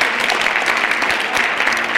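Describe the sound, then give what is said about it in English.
Applause from a church audience clapping in praise after a prayer: a dense, steady patter of many hands that fills the whole clip at an even level. “Give God a great big hand clap for praise.”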